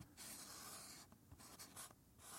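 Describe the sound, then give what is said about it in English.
A name written by hand, with a pen scratching steadily across paper in a faint, continuous rasp broken by a few short, quick strokes. “My name doth I write. See it here in doth moonlight.”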